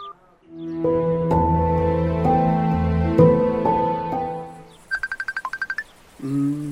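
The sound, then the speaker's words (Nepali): A phone ringtone sounds for an incoming video call. Sustained melodic notes play first, then a rapid run of short beeps, then a brief final tone. “ए, फेसबुकमा त विजय दाइले पो video call गर्नुभयो त।”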